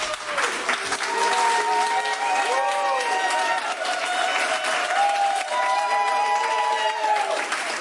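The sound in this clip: Studio audience applause at a live radio show in Berlin: dense, steady clapping with voices mixed in, sustained at an even level for about eight seconds.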